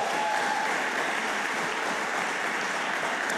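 Steady applause from a church audience for the worship band, an even, continuous wash of clapping at moderate volume with no break.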